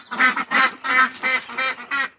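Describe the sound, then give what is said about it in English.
Ducks quack inside a duck house that chickens have also entered: six loud, nasal, harmonic quacks in a steady rhythm, each short and separated by brief gaps. “So now there are chickens and ducks in the duck house as the chickens scratch around looking for”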